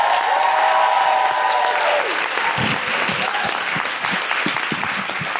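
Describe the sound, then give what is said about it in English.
Audience applause greets a comedian walking on stage: dense, steady clapping that carries on at an even, loud level from start to finish. “Please put your hands together and welcome the very funny Deborah Frances White.”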